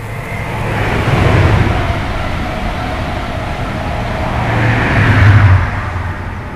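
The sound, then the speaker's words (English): Passing train on the line toward London Paddington, heard beside a beehive on an industrial estate in Slough: a steady, broad rumbling roar that swells twice, once early and again more strongly near the end, with no voices. “That wasn't a bee, that was the train to London Paddington.”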